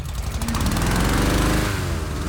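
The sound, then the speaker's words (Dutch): A motor-driven fan blows cold air into hot air balloons before an evening launch of many balloons, making a loud, steady, rough engine-like drone with a fast pulsing throb and no pauses. “Die ballonnen die worden eerst met koude lucht gevuld. Dat gaat met deze ventilator die je nu hoort.”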